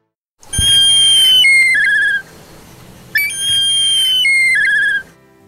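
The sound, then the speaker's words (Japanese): Two clear, high whistled calls come from a black kite raised from a chick at Yukyuzan Small Zoo. Each is a long sustained note that steps down into a lower, wavering trill, and a short pause separates the two calls. “そちらで暮らしているトビの鳴き声。”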